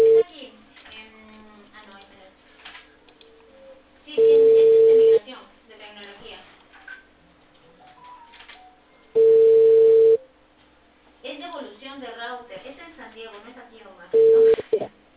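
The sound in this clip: Ringback tone of an outgoing telephone call: three long, steady, loud beeps spaced about five seconds apart, the last one cut short, with people talking quietly in the gaps between them.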